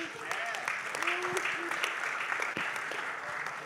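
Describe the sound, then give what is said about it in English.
Audience applause at a church gathering as listeners put their hands together to welcome speakers: dense, steady clapping that fills the whole stretch at an even loudness, with a few voices calling out over it. “Would you put your hands together and welcome these guys?”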